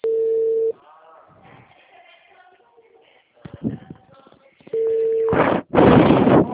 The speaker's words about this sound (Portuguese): A ligação caiu.